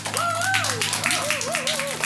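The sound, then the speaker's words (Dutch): Audience applause for panel guests at a Dutch talk event, brisk clapping running under a loud whooping voice that slides up and down in pitch. “Dus geef ze nog een groot applaus aan Mani, Juwaria, Murat en Noorlaila.”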